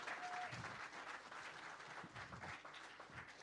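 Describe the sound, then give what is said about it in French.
A church audience applauding in praise during a sermon, a faint, even wash of many hands clapping that holds steady throughout. “Est-ce qu'on peut acclamer le Seigneur Merci pour notre église.”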